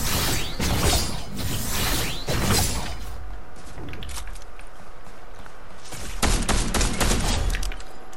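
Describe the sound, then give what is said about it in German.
Video game gunfire crackles in dense bursts of rapid shots, fades to a quieter stretch of clicks and rustling, then returns as another loud cluster of shots near the end. “Oh, hier wird geschossen.”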